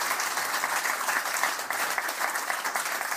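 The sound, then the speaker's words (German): Studio audience of guests applauding at the Lensing Mediaport, a continuous dense patter of many hands clapping at an even level from start to finish. “Und wir sind nicht allein. Sie hören es ja auch im Hintergrund. Wir haben hier viele Gäste bei uns im Studio im Lensing Mediaport.”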